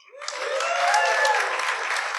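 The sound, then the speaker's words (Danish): Audience applause welcoming a guest onto a live comedy talk show stage. The clapping swells quickly from a faint start into a dense, loud, steady wash that carries on to the end. “Giv ham en hånd.”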